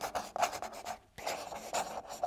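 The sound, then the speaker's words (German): Someone writing, with scratchy strokes across a surface coming in quick, uneven bursts. A short pause splits the faint, dry scratching into two runs. “Nicht stören. Er schreibt.”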